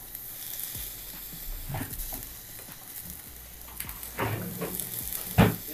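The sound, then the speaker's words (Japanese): Oysters sizzling as they grill, a faint, steady crackling hiss broken by scattered sharper pops, with one louder pop near the end. “なかなか牡蠣焼くことないじゃん。”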